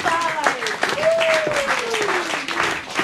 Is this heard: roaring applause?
yes